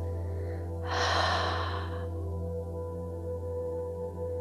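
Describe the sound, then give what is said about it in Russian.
A full breath during a guided breathing exercise, in through the nose and out through the mouth. One airy rush of breath lasts about a second, over a low steady hum, then it is quiet. “И еще один полный вдох через нос и выдох через рот.”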